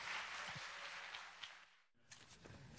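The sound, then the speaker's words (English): Faint audience applause welcomes guests on stage, a soft continuous patter that briefly drops away near the middle before picking up again. “So would you please give James and Esther a big welcome as they as she comes?”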